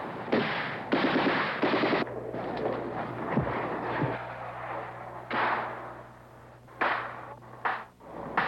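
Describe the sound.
Sniper gunfire in a war zone comes as several loud bursts of rapid cracking shots separated by short gaps, over a low steady hum.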